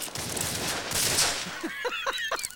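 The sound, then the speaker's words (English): Gunfire riddles a wooden bucket holding knives in a Western film scene. A rapid burst of many sharp shots crackles in quick succession. “Now, Chavez throws some knives into a wooden bucket. Suddenly, the bucket is riddled with bullets and the boys duck for cover.”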